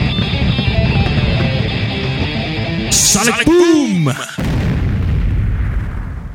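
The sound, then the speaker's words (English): A loud sonic boom sound effect: sweeping, warbling tones burst out and then collapse into a broad, roaring rumble that slowly fades. “Sonic Boom!”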